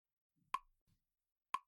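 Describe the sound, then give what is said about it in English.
Two crisp ticks from a swinging pendulum, spaced about a second apart, sharp and fairly loud against near silence. “Focus on how it swings back and forth, all while it ticks, ticks, ticks.”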